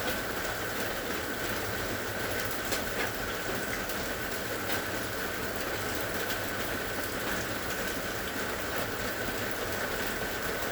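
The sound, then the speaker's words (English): Steady rain falls continuously, a dense, even hiss of drops with no pauses, unchanging in level and alone without voices. “Put your attention in your heart area and listen to the sound of the rain from your heart”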